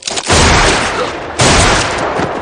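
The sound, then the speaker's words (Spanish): Gunfire from a gunfight in a 2007 western film: two loud, sudden blasts about a second apart, each followed by a rumbling, sustained roar that lingers before the next. “Ben observa con atención al bandido que están encañonando. Súbitamente abre fuego contra ellos.”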